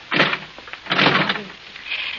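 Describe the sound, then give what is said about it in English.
A locked door is tried and rattled. Two broad, fairly loud bursts of knocking and rattling come one after the other, with no voices. “The door's locked. I can't get out.”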